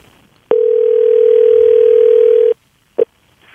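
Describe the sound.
A telephone dialing a call: a steady single-pitch dial tone sounds for about two seconds and cuts off, followed after a short pause by one brief beep, with no talk.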